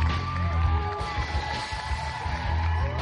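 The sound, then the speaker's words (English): Crowd cheering and whooping in excitement after a Kawasaki Curve giveaway is announced, a dense, continuous roar of voices with shrill whoops that holds steady and loud throughout. “The crowd's just going wild from finding out that a Kawasaki Curve is going to be given away.”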